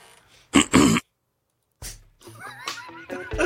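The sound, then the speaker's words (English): Someone clears their throat in two short, loud, rasping bursts, then a pause of silence before speech begins. “Little throat clearing episode.”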